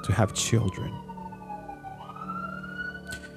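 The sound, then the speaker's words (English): An ambulance siren outside wails as a gliding tone that slides down, then swings back up, heard at moderate level behind a person speaking at the start. “I really hope that nothing bad is happening to wherever the ambulance is going to.”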